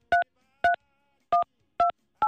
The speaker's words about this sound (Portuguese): Deixa eu ver aqui, deixa eu ver o telefone. Ligar na farmácia.